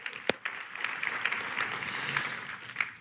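A church audience at a morning adult service applauds students, a brief burst of steady, even clapping from many hands.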